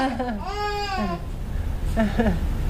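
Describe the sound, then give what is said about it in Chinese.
An infant cries during a family scene while an adult tries to soothe it, giving two wailing bursts with bending, wavering pitch, separated by a quieter pause. “赶紧把孩子抱进去吧，你看他哭了”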